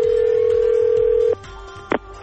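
Telephone line tones as a call connects to an answering machine: a steady, even tone holds for over a second and then cuts off. Faint line hiss follows, then a short, sharper beep near the end.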